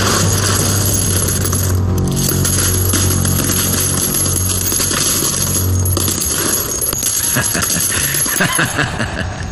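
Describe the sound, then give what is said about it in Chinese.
Silver dollar coins being counted clink over and over in many bright metallic taps and jingles, a continuous, busy chiming at a steady level. “我就喜欢听这点大洋的声音。”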